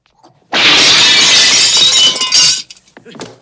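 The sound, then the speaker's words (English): A cabinet being smashed gives a loud crash of shattering glass that lasts about two seconds, then tails off into a few faint tinkling bits. “Lee knocks him back, then skips away under a cabinet, which Han smashes.”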